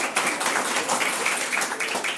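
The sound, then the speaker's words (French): Applause after a child's improvised sung soprano performance, a dense, even patter of many hands clapping, fairly soft and continuous, with no talk over it. “Rôle de Soprano interprété par Clémence, ça mérite des applaudissements, c'était beau. Et improvisé en plus.”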